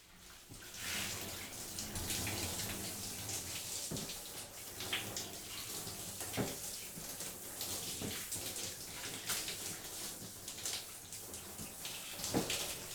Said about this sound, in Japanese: シャワーの水を出して全体的に髪を濡らしますね。